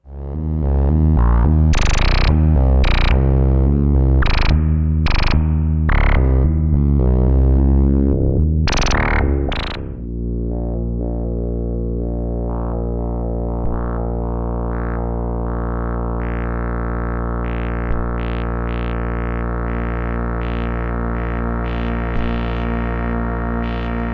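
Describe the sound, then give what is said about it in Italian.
A vintage VCS3 analog synthesizer plays a dense run of pulsing, distorted electronic tones. It then settles into a loud, sustained buzzing drone rich in overtones, with occasional small blips flickering over it. “Questo è il suono di un VCS3 usato da uno youtuber appassionato di vecchi sintetizzatori.”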